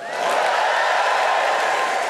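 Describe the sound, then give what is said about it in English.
An audience at the Apollo cheers before a song about train travel, a sustained roar of many voices that swells in quickly and then holds steady and full for about two seconds. “Could you give me a cheer, Apollo, if you've ever been on a train before?”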